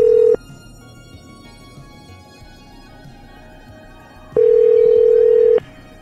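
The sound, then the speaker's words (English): A telephone ringback tone while calling someone back, a steady low buzz cut off at the very start, then silence with faint background hiss, then a second full buzz lasting just over a second. “So call him back, see why he's fucking around on the phone.”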